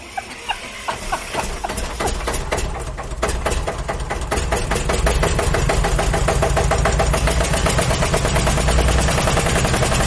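A car engine starts up in the armoured 'bulletproof comfort mobile': rough, uneven cranking settles into a loud, fast, steady rattling run that grows slightly louder, with no voices.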